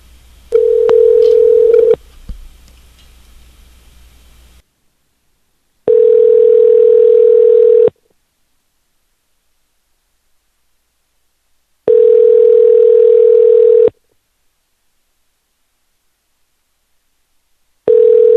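A landline telephone tone repeats in a steady cadence: a pure, even hum sounds for about two seconds, then silence for about four. Four bursts are heard, the last one cut off, after a short noisy start.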